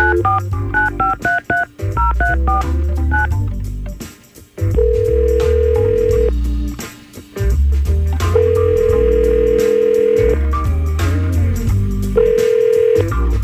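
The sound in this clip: Outgoing telephone call: a rapid run of touch-tone dialing beeps, then three long, steady ringback tones separated by pauses. A constant low, full backing sound continues under all of it.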